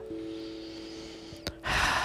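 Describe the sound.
A deep exhale during a breathing exercise: one breathy, airy rush swells near the end over a low, steady tone, with no talking.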